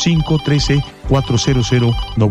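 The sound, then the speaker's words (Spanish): A telephone rings with an incoming call: a loud electronic melodic ringtone repeating in quick bursts, with a brief break near the middle before the pattern starts again. “Ya tengo una nueva comunicación, voy a agarrar esa llamada.”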